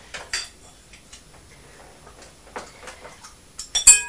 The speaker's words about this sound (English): This is a big bowl. Big bowl. It's bigger than the bowl that you have your cornflakes out of.